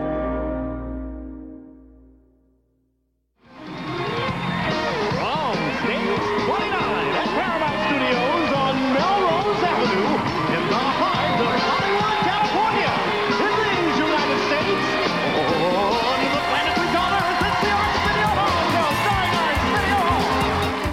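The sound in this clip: Studio audience at The Arsenio Hall Show, May 1994, erupting into a dense, loud, sustained wall of cheering and shouting that follows a fading opening sound and a short silent gap.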